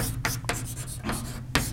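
Writing on a board during a lecture on physics equations, with a few scratchy rubbing strokes in quick, irregular succession over a low steady background hum.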